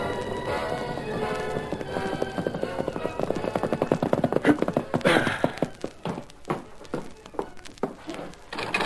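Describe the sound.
A horse gallops with loud hoofbeats in a fast, driving rhythm after a fading musical passage. The beats then break into slower, more separated thuds.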